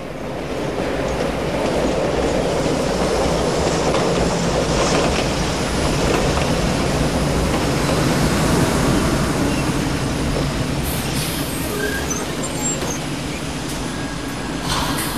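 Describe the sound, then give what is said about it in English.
A tram trundling along its rails as it emerges from a tunnel: a loud, steady rumble with clattering wheels throughout and a few brief high squeaks toward the end. “The tram trundles on and emerges from the tunnel into the open air.”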